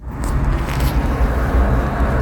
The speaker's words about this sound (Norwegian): Han er ute og kjører. Men om det er vinterdekk eller sommerdekk, det klarer ikke jeg å høre på den lyden.